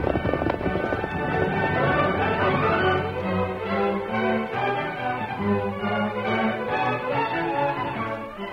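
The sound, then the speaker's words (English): Galloping hooves of two horses, one freshly saddled, racing toward town: a rapid, steady drumming that runs throughout under loud, sustained music. “Quickly, he saddled Scout, and with Silver in the lead, he started for town. Come on, Silver. Get him up, Scout.”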